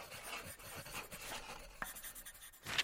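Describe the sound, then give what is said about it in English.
A pen scratches across paper as questions are written out on slips for a festive hat game, faint, irregular strokes and scribbles that continue quietly throughout. “Come on, write your questions down. Let's get them in the hat.”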